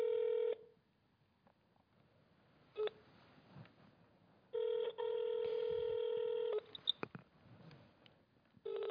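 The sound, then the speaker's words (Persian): Telephone tones from a call to a control room that goes unanswered: a few steady, loud multi-tone beeps separated by quiet gaps, followed by short blips. “اتاق فرمانشون هیچ تماسی رو وصل نمی کنه، یعنی اصلا جواب نمیده تا بخواد وصل بشه.”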